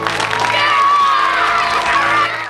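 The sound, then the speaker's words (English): Brothers cheering as a graduate crosses the stage at a graduation ceremony, a loud, continuous burst of shouts and whoops over a crowd that holds steady, then tails off at the end. “Her brothers cheer as she crosses the stage to the principal and shakes his hand.”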